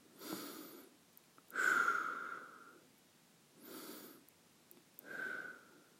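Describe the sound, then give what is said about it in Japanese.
Deep breathing during a seated hamstring stretch for low back pain: two slow, deep breaths heard as soft, airy pushes of air, faint and unhurried, with no talk. “その状態で深呼吸を2回行います”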